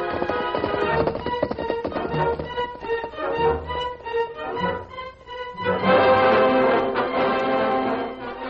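Hoofbeats of the horse Silver galloping along a road, a rhythmic clip-clop running beneath loud orchestral music that swells and dips throughout.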